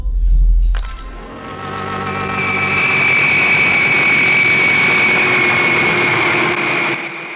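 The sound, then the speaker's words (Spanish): An airplane lands at night in a lonely spot beside an old hay barn: a low thud, then a loud, steady engine drone with a sustained high whine that holds for several seconds before easing off at the end. “Alrededor de las 2 de la madrugada, Calimán hace aterrizar el formidable avión de RM en un paraje solitario junto a un viejo pajar.”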